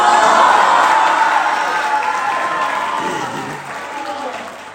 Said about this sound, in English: Come on, give it up for Moody.